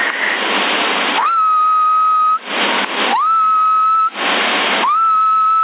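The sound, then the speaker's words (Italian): A person whistles into a CB radio microphone: three steady high whistled tones, each gliding up briefly and then holding level, separated by bursts of loud, narrow-band radio hiss. “se fischio dimmi se aumenta”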